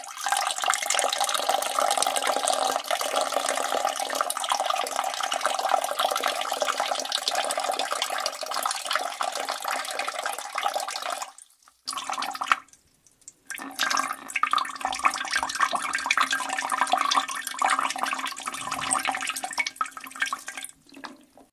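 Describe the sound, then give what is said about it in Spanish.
A stream of liquid pours in a continuous hissing, splashing rush for most of the twenty-odd seconds, cuts out briefly about halfway through, then resumes until the end. “Yo voy a insertar en este punto, cuando edite, 18 segundos de un ruido de un chorro.”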